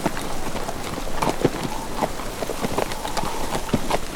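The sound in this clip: Horse hooves clip-clop as a horse is ridden across sand, giving a few irregular, fairly sharp knocks over a steady rough hiss.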